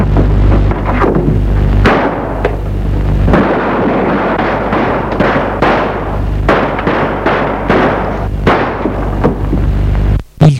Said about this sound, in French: Elle prend l'arme et tire sur la fille.